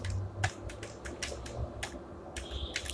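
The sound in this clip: Keystrokes on a computer keyboard as a website name is typed, a quick, irregular run of many soft, quiet clicks with brief pauses between groups.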